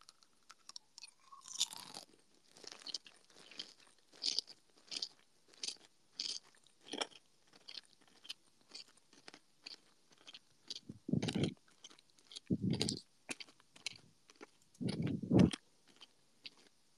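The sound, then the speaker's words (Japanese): Crunchy kohakuto crystal sugar candy chewed close to a binaural dummy-head microphone: many sharp, dry crunches in an uneven, steady rhythm, with a few heavier, deeper bites toward the end and no talking. “これがまず琥珀糖ね。これをちょっとひたすらね、ガリガリ”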